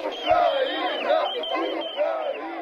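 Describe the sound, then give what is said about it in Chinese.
Football fans cheer and blow horns while waving flags before the Ukraine–Italy World Cup quarter-final at the Hamburg stadium, a dense and steady crowd roar with wavering, tonal horn blasts riding on top. “比赛还没开始，球迷们就吹号摇旗，为自己的球队加油助威。”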